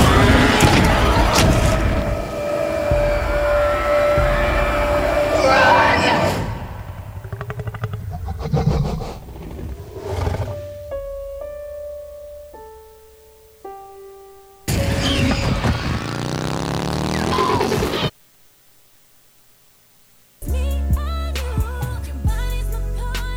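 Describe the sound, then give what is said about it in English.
Booms and rumbling vehicle noise from the Jurassic World movie trailer: loud, dense bursts, then a quieter stretch of sparse sustained tones, another heavy surge, a brief silence and a final loud burst with music. “So that was the trailer for the new Jurassic World movie”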